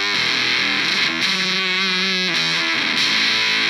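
Distorted electric guitar, a Kay K142, plays loud sustained chords that change a few times, thick and buzzy throughout, with no talking.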